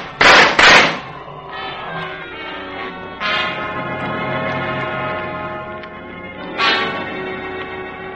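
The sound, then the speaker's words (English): Two sharp, loud gunshots in quick succession ring out in a jungle lion-hunt adventure radio drama, followed by a long sustained harmonic drone that swells twice. “Here, give me that gun!”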